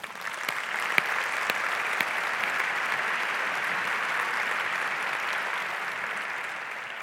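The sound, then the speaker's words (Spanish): A big round of applause for the partners at an awards event: sustained, even clapping from a large audience, with a few sharper individual claps near the start, easing off slightly toward the end. “Así que por todo ello, pues pido un gran aplauso para todos vosotros, partners.”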